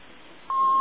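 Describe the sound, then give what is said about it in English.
A single telephone keypad tone from PIN entry on a phone line sounds about halfway through: a steady, pure beep that holds over faint line hiss until the end. “Please re-enter your PIN now. You see, that's what they do, because for security, they make you enter the same one twice.”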